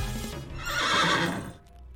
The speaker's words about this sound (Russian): Илья, хороший у тебя конь, Илья.